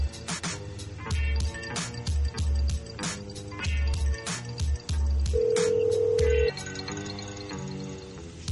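Telephone tones sound as a call is dialed, a dense, regular run of sharp electronic beeps and clicks with a single steady tone held for about a second midway. No one speaks.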